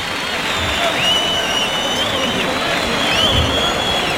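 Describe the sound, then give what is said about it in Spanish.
A bullring crowd roars and claps, demanding a trophy for the bullfighter, a dense and steady clamor sustained without a break. “Y el público ahora sí es un clamor pidiendo trofeo.”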